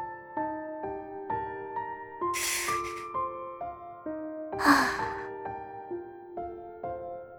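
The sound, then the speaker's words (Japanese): One big, deep breath sounds as two strong airy rushes of breath. They rise above soft, sustained melodic notes that change pitch every second or so and carry on throughout. “私は一度だけ大きく深呼吸して、すまし顔を浮かべた。”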